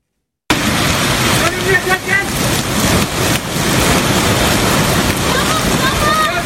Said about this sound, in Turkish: Selin sürüklediği araç köprüde sıkıştı. Otomobilde can pazarı yaşandı. Nevşehir'in Ürgüp ilçesinde sel hayatı olumsuz etkiledi.